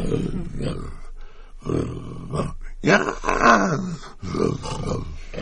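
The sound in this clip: A human voice imitating an elephant, letting out a few rough, growling roars separated by short pauses.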